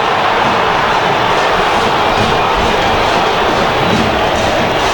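A football stadium crowd roars in reaction to a play during a Cerro Porteño match, a dense, loud, unbroken wash of cheering that holds steady for about five seconds.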